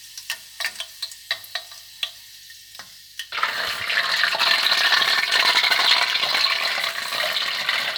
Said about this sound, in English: So, but you can hear the popping sound for sure.